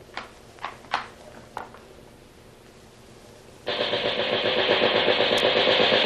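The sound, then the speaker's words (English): A machine gun is test-fired aboard a schooner. A few sharp knocks come first, then a long, loud burst of rapid, evenly spaced shots runs to the end. “Man the machine gun, Halton. Give it a test to make sure it's in order.”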